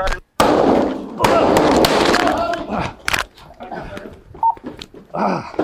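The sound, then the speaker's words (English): Sharp gunshots ring out during a police response to a school shooting: a few loud, abrupt bangs cut through urgent shouting and talking voices. “Oh, shots fired! Get inside!”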